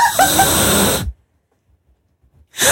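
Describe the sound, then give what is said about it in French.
Air blown through a trumpet while it is being cleaned: a breathy rush with squeaky, rising tones for about a second, then silence before another burst of blowing begins. “parce qu'il nettoie la trompette. Oui, ça fait ça. Il nous dira quand c'est bon. Il faut qu'il souffle dans le bon bout, déjà.”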